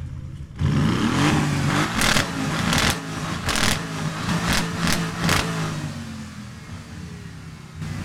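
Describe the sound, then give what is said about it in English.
A GT8R race car, built on a GTE, GT3 and GT4 chassis, has its engine revved hard in a series of sharp, loud blips over a steady rumble, then settles back to a lower idle. “I'm sorry, but a gentleman inside is revving the engine”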